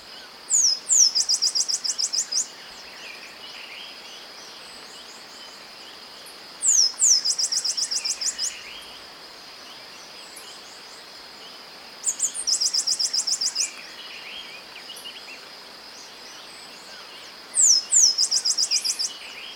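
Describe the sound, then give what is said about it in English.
Black-capped Sparrow song: four short, high bursts of rapid chirps and trills, spaced about five seconds apart, over a steady faint hiss. “Black-capped Sparrow, 1.”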